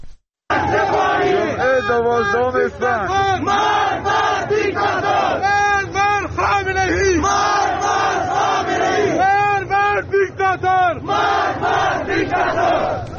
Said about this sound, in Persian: ما الان میریم زاهدان صدای مردم، شعارهای مردم معترض امروز رو میشنویم.